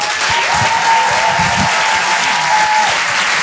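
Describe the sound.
Audience applause welcoming comedian Cody on stage at the Apollo Théâtre in Paris, a dense, steady, loud clapping that holds evenly from start to finish with no talk over it.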